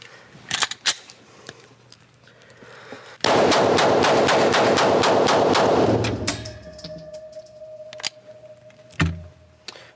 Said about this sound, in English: As soon as I start firing, and then as soon as you hear it stop, hit stop.